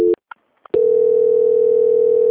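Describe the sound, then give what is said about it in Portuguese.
Telephone line tones sound while a call is transferred on hold: a short steady tone, a couple of faint blips, then a loud, unbroken continuous tone that holds to the end. “que eu vou transferir o contato para o controle de qualidade, que dará continuidade à sua contratação. Aguarde em linha, por favor. Tudo bem. Transferência.”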